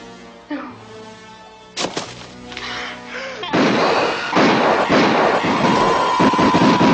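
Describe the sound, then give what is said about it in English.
Gunfire starts with a few sharp, loud cracks. It then becomes a sustained, dense roar of noise that stays loud to the end. “Stop firing!”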